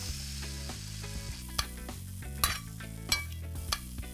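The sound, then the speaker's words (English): Udon noodles stirred into leftover sauce with sesame oil in a pot, a steady sizzle over a low hum, punctuated by a few sharp clinks of a utensil against the pot. “Put them back in the pot for a second. Add a little more of the leftover sauce. Give it a mix.”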